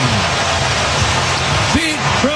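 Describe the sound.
A baseball stadium crowd roars after a 435-foot first-inning home run, a dense, steady wall of cheering that holds level throughout, with a voice briefly audible over it near the end.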